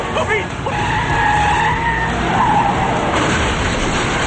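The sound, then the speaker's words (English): Tires skidding as an ice cream truck swerves toward a guardrail: a continuous loud roar of road noise with high squealing tones running throughout. “A vehicle comes at them, and they swerve toward a guardrail.”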